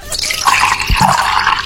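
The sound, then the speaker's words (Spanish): Water filling a small cup or glass, a brief, steady hissing and splashing pour with slight gurgles, fairly loud and heard alone. “Llenando una tacita con agua, un vaso con agua, era la respuesta correcta al sonido misterioso del día de hoy.”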